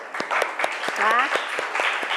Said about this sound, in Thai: โอเคปรบมือเพื่อนหน่อยค่ะนะ